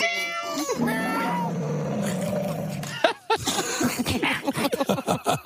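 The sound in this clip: A person's voice imitating a cat with a long, drawn-out, wavering meow that slides up and down, followed by quick speech.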